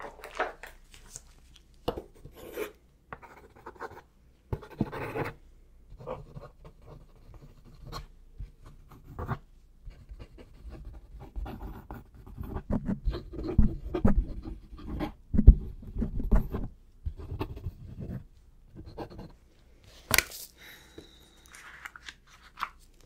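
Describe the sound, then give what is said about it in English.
Pen scratching on paper as something is written down: many small scratchy strokes in irregular bursts, quiet at first and busier and louder in the middle, with short pauses between strokes and no voices. “I gotta write this down.”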